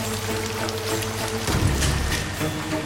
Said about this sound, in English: Rain falls on rows of core samples resting near the empty workstations.